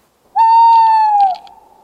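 An owl call played back during a forest owl survey: a single clear, sustained hooting note lasting about a second. It drops slightly in pitch at the end and sounds alone.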